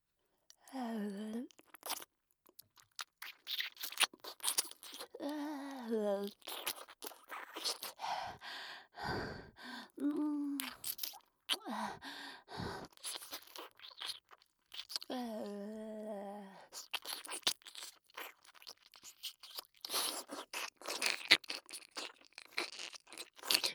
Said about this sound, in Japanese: それではお耳の中もおきれいにさせていただきます。